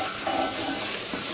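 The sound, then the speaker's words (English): Oil, or vegan butter in its place, heats in a cooking pot for curry before tofu is fried, producing a steady, fairly quiet hiss and sizzle with no talk. “Now we're using the same pot, huh? To cook the curry, huh? Yeah. We also put like a tablespoon of oil.”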